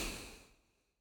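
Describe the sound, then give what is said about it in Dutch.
A single long, deep exhale during a relaxation meditation: a soft, breathy hiss that starts fairly full and fades steadily away to silence over about a second. “En adem nog één keer lekker uit.”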